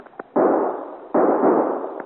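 Guns firing in a radio drama: two loud, sharp blasts about a second apart, each trailing off in a long rumbling decay, with faint small pops around them.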